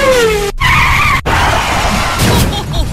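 A Porsche sports car skids with loud, sustained tire squeal: shrill tonal screeching over a roaring engine, continuous and intense for the whole stretch.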